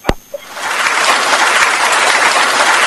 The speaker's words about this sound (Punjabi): ਵਾਹ ਜੀ ਵਾਹ ਵੈਭਵ ਸੂਰਿਆਵੰਸ਼ੀ ਤੇ ਤੁਹਾਡੇ ਲਈ ਤਾੜੀਆਂ ਵਜਾ ਲੈਣ ਦੋ ਮੈਨੂੰ।